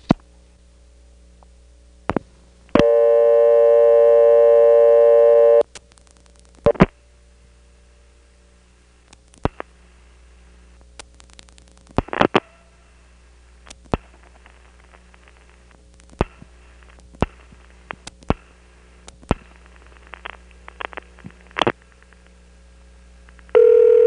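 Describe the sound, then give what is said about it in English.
A telephone call dialed through an NX1 exchange: a steady, buzzy dial tone, then many sharp switching clicks at irregular intervals over a constant low hum, ending as a new tone begins. “Now I'll record calls to 291, for which you dial 8 first. 291 is an NX1”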